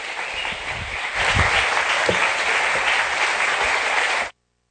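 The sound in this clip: Audience applause welcoming guest speakers, beginning modestly and swelling at about one second into dense, steady clapping that holds evenly before stopping abruptly.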